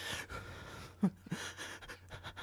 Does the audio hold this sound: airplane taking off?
no